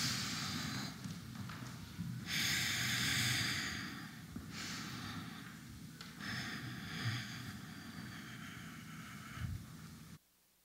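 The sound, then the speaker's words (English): Deep breathing in, held during a quiet guided pause: a few long, soft, airy breath sounds rise and fade over a steady low background hum, with no talk. “Let's breathe in.”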